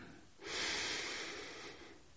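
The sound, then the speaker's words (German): One long, deep breath drawn in through the nose during a guided relaxation exercise, a soft, airy hiss that swells quickly and then holds steady for over a second. It is faint and alone, with no voice. “Ich atme wieder tief ein.”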